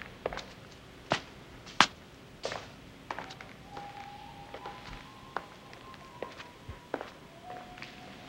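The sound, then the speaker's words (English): Footsteps crossing a sleek Art Deco lobby, many sharp, clicking heel strikes at a steady walking pace, the first few loudest, over a faint sustained tone. “The scene changes to the dark figure of Luca Brasi walking down a sleek Art Deco lobby with pale pink walls and gleaming gold trim.”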